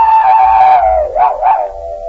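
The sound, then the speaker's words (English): A human voice imitates a dog howling, holding one loud, sustained tone that slowly falls in pitch, then wavers up twice before settling into a lower held note. “You want to howl now?”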